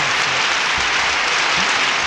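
Audience applause for a guest, with dense, steady clapping throughout at an even loudness and no voices over it.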